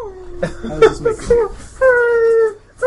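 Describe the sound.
A person imitates a whimpering dog, playing a dog that has been tormented. A few short, whiny vocal yelps lead into a longer, steady, high-pitched whine, fairly loud and uttered alone.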